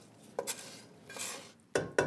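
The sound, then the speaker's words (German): Fried bacon being added to a pan while a savoury egg-and-onion mixture is prepared: a few faint metallic clinks and scrapes of a utensil against cookware over a soft background rustle. “Und den angebratenen Speck. Und den das könntest du jetzt reinlegen, gell? Geben wir das dazu.”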